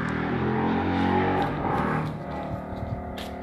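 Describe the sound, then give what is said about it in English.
An ATV (four-wheeler) engine drones as it drives by on a street, a steady buzzing rumble with layered harmonics that holds loud for about two seconds, then eases slightly lower. “Looks like someone's driving a four-wheeler or an ATV, not sure what you would call it. But they're not supposed to be driving them on the street.”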